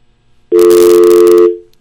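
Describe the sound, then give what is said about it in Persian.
A telephone tone follows a dropped phone call: one loud, steady electronic tone held for about a second, then it fades out. “فکر کنم که تماس ما با آقای سعید زاده قطع شد.”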